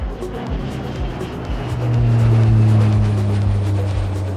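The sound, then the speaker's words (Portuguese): A small jet plane taking off: a steady, rough engine roar with a low droning tone that swells louder partway through and then holds at full strength. “retorne a cadeira para a posição inicial, verifique se a mesinha à sua frente está devidamente presa e aperte os cintos, pois esse jatinho vai decolar.”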